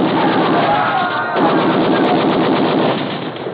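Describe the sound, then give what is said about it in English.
Machine guns fire at a lifeboat in rapid, continuous rattling bursts, loud and sustained for the full clip. “that lifeboat will make a good target for you. Yeah, I need the practice. Shoot,”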